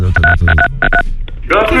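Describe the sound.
Touch-tone keypad beeps as a phone number is dialled to call the gendarmes, a quick run of short, loud dial tones followed by a voice speaking.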